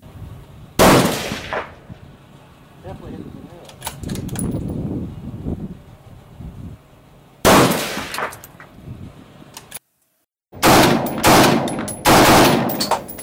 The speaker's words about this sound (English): So I'm going to sprint down 300 yards and try and get this rifle on target as fast as possible.